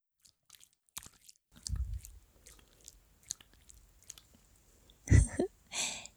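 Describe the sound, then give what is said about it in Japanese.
Lotion being spread over skin gives faint, wet clicks and soft sticky ticks, broken by a few louder squelching, squishy bursts. No one speaks. “滑りよくするために、ローション塗るよ。”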